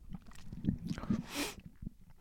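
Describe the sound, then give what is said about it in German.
A sip of tea: a few soft, wet mouth noises and one brief breathy slurp, faint and alone. “So einen Schluck Tee getrunken.”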